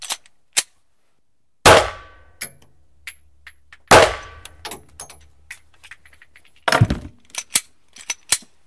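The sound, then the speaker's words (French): Gunshots fired during a forensic firing test: three loud, sharp bangs with decaying tails, separated by pauses and mixed with lighter metallic clicks and clinks. “Donc là, vous venez de tirer”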